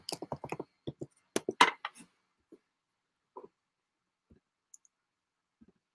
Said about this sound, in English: Let me see if I can just type it in here and see anything.